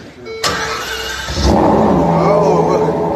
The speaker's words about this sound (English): Here he is showing his Ferrari to a few people. Let's see how it sounds.